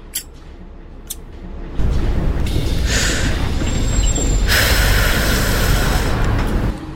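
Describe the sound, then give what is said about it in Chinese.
A city bus pulls into a stop. After a quiet opening with a couple of faint clicks, a loud engine rumble surges in and stays, broken by two bursts of bright hissing. “756公车进站，本车开往淡江大学。”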